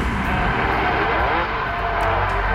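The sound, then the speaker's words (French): Formula 1 racing cars starting their engines on a 1958 Havana street circuit make a dense, continuous roar that stays loud and steady without a break. “Le vacarme des Formule 1 qui démarre fait trembler les murs du quartier huppé de Malecón.”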